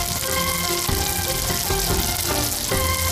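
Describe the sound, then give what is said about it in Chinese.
Hot rapeseed oil, heated over high flame, poured onto chili powder: a loud, steady, hissing sizzle that continues unbroken through the whole clip. “将锅猛火烧热，倒入菜油，将油烧至80%，浇在辣椒面上，”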